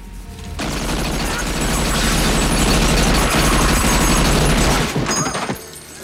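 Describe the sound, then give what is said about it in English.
Sustained machine-gun fire rings out in a film scene as a gunman opens fire on a gang at a party, a loud, dense, rapid burst lasting around five seconds before abruptly stopping. “Hickey opens fire, killing everyone in the gang except Giorgio and the policeman sitting next to him.”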